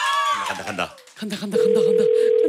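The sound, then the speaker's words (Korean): A telephone ringback tone plays during a redialed call after a busy signal. Voices talk first, then a single flat, steady tone holds unbroken at even loudness to the end. “통화 중이어서 한 번 더 걸어보겠습니다.”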